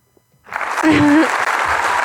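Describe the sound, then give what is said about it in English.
An audience claps after a half-second of near silence, then the applause swells and holds at a steady, dense level, with a brief voice-like tone rising over it. “Let's clap for him. That was for him.”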